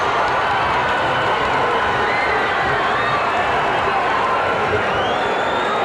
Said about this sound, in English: And a huge crowd responding to Idol's request.